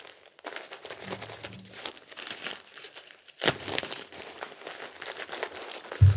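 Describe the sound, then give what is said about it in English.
Plastic crinkling of a disposable diaper as it is pulled up and taped, a continuous papery rustle of many irregular crackles with a sharper, louder burst partway through and a thump at the end. “Now let's pull the diaper up on you. Get you all taped in.”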